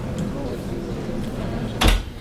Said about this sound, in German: Ja gut, dann Tür zu bitte.